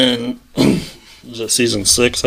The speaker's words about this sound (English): excuse me, my throat's a little getting coughed up here